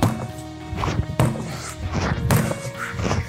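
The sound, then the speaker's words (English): Heavy whacks of a sledgehammer striking a tire during a workout: a few loud, spaced blows over a steady background. “make sure that when you're hitting the tire, you don't bounce back up and hit you in the face. So get used to your tire, how much it's gonna bounce, where it's gonna bounce, then work up with the intensity.”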